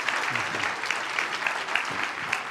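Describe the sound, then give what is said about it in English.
An audience at Calvary Monterey applauds to welcome a speaker, with dense, steady clapping of even loudness from start to end. “Would you please do me a favor, put your hands together and give a heartfelt Calvary Monterey welcome for Dr. Moreland.”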